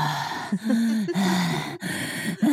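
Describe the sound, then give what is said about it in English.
A voice imitates heavy breathing into a phone, with a few long, breathy, partly voiced breaths in a steady rhythm, each separated by a brief pause. “is she like breathing into the phone like,”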